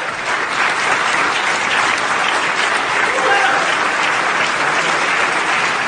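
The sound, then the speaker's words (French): A standing ovation in the New York City Council chamber after a vote on closing Rikers Island, a dense, continuous roar of clapping from a large crowd that holds steady throughout. “Longue ovation debout dans cette salle du conseil pourtant d'ordinaire très policée.”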